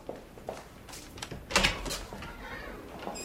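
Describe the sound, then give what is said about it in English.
A door opening in a room stocked with medicine: one brief, fairly loud clunk stands out from a low, steady background, with softer faint knocks around it. “She opens the door, revealing Okoye with his mop and bucket.”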